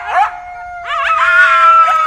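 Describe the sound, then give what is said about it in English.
A pair of lean gray coyotes at a wildlife rescue compound give a quick burst of yips, then longer wavering howls mixed with yipping, loud and clear with a sustained high tone running beneath. “Doris Duncan strikes up a sort of running conversation with a pair of lean, lively gray coyotes”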